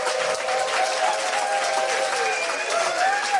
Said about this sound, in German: Wir sind voll bis unters Dach, kann man sagen. Können die Leute das auch einmal hören? Herzlich willkommen, ihr alle.